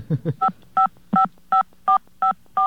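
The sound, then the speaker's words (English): Touch-tone telephone dialing into a Bell Atlantic phone service: after a short low sound, seven crisp, evenly spaced dual-tone beeps of similar loudness ring out, each brief and clean with quiet gaps between. “why don't you, do all the dialing and just walk us through it while you're doing it?”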